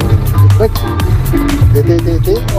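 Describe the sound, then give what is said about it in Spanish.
Car or bus engine noise forms a steady low rumble behind a caller on the phone, whose talking stays louder and on top throughout. “Chuta, no le alcancé a entender muy bien lo que decía con el ruido del motor del auto, de la micro.”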